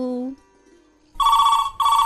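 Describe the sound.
Telephone ringing for an incoming call: after a short voice and a quiet pause come two bursts of bright electronic ringing, the second cut off at the end.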